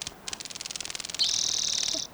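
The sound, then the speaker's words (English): A grasshopper flies by, first with a quick train of high, crackling wingbeat pulses, then a continuous high-pitched buzz lasting under a second before it cuts off. “Grasshopper flying by.”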